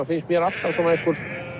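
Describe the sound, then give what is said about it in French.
Sheep bleat outdoors in Iceland, ewes and lambs turned out after winter feeding and lambing. A few wavering, quavering bleats follow each other in quick succession. “On a nourri les moutons tout l'hiver, les brebis ont mis bas, et là on les lâche dans la nature”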